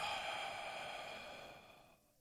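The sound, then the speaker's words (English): A long, airy exhale through the mouth during a relaxing deep-breathing exercise, a steady hiss of breath that gradually fades away into quiet. “we'll begin with some deep breaths in through the nose, out through the mouth, just to relax ourselves a little bit. So inhale. Exhale.”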